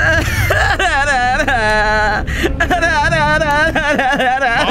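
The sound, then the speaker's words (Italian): A person cries and whimpers throughout in a high, quivering voice with wavering pitch, loud and continuous, with a low background sound underneath. “Basta, non piangere”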